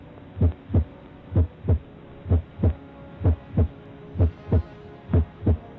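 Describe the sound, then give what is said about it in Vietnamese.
A boy's heart pounding as he gropes through a silent, dark room at night: six steady pairs of low, thudding lub-dub beats, evenly spaced and alone against quiet. “bốn bề im ắng, chỉ còn cái tiếng nhịp tim thằng Tuấn đang vang lên thình thịch”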